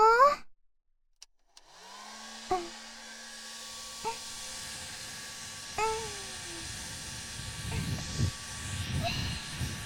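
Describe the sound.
A hair dryer blows as hair is dried. Faint talk at the start gives way to a brief near-silence, then a steady, hissing whir that keeps going, with a few short tonal blips over it and low rustling near the end.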